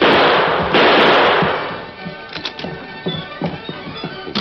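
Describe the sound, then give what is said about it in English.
Gunfire in a radio drama: a loud, harsh blast of noise sustains and then fades over about a second and a half, followed by several fainter sharp cracks. “you the critter that's doing all the shooting around here.”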